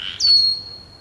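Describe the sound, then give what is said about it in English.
A red-winged blackbird gives a single thin, high alarm whistle in a marsh on Saturna Island, British Columbia. The whistle starts sharply, holds at a steady pitch, then fades out. “We continue to hear the alarm whistles of the red-winged blackbird as they establish a kind of tempo for the activities of the inhabitants in this marshland.”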